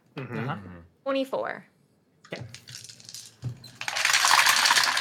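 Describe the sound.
Dice rattle and tumble across a surface for a saving throw in a tabletop role-playing game, a loud clattering burst near the end that follows a few short stretches of people talking.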